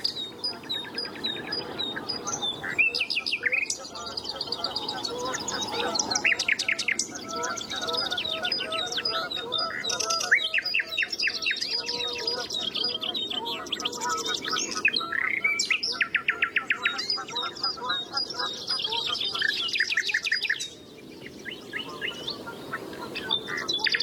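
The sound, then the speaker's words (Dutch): A nightingale sings its morning song in a long, unbroken run of varied phrases: rapid trills, sharp repeated chirps and high whistles that shift from phrase to phrase at a lively, fairly loud level. “Dit is een mooie ochtendzang van de nachtegaal.”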